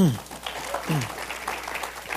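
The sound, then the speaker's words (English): Applause for a pastor at a church service, with steady clapping from the audience while a voice rises over it twice near the start. “We'll give Pastor a hand clap tonight.”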